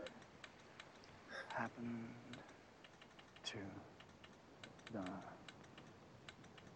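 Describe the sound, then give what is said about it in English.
Quick, light tapping that imitates a telegraph key: many irregular clicks, faint and uneven in rhythm, with voices talking in short bursts between them. “Actually, you made a telegraph. Nice. What are you sending?”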